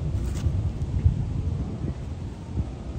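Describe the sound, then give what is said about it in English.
Wind blows through trees as a steady, broad low rush that swells and eases slightly throughout, with no voices over it. “listen to the wind through the trees”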